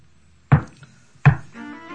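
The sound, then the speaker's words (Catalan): Two loud, sharp knocks on a door, less than a second apart, each a single solid rap followed by quiet. “Qui truca a la porta?”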